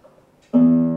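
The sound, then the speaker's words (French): Guitar note played as a recorded example: a single plucked tone that enters after a moment of near silence, ringing loudly with a strong steady pitch and clear overtones that sustain and ease off slightly. “Bon, c'est un son de guitare.”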